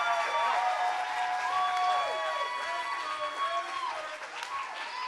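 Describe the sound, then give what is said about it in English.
Audience applause welcomes two coaches onto a church stage, a steady wash of clapping that runs the whole time, with voices calling out over it. “would you jump up on your feet? Would you put your hands together? Let's welcome to the stage Coach Brady and Coach Johnson up here on stage. Come on, fellas. I love it. Come on, y'all can do better than that. Help them out.”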